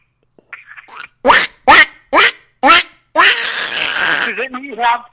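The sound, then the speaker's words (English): A human voice imitates a cartoon duck: four loud, separate quacks in a steady rhythm, then a longer raspy, buzzing squawk that breaks into a few shorter honks. “That was Howard the Duck.”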